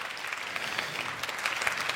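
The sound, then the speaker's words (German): Audience applause in a hall after a talk: a dense, even patter of many hands clapping at moderate loudness, with no voices. “Das war's. Applaus, Applaus, Applaus, Applaus, Applaus.”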